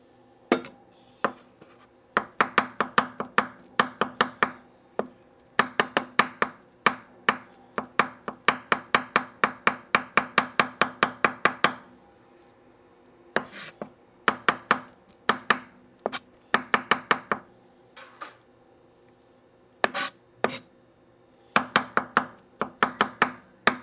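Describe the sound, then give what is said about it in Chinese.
A knife chops food into small pieces of about one centimetre, in preparing salted egg with squid. Bursts of rapid, crisp strokes are separated by short pauses, with many chops in all. “那我自己呢是也是一样都会切碎啦，但是可能就是大概一乘一左右，大家可以去抓一下那个大小。”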